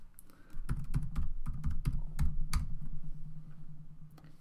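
Computer keyboard typing as a terminal command is entered: many quick, irregular key clicks in bursts, crisp and moderately loud, with no voices.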